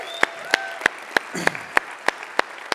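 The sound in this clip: Rhythmic applause welcoming first-time guests at a church service: nine sharp, evenly spaced claps in a steady beat, over a low crowd murmur.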